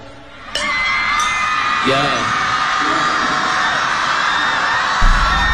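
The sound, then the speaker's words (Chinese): A live audience at a music performance screams. The high-pitched crowd shrieking starts with a sudden jump and stays loud and sustained throughout, with cries and voices rising out of the noise. “这现场的尖叫声，旁边有人在尖叫”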